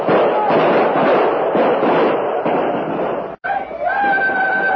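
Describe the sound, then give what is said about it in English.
Volley of gunfire: a dense, crackling burst of many overlapping shots lasts about three seconds, then cuts off sharply into a brief hush before quieter sounds resume. “Now, Major. Open fire!”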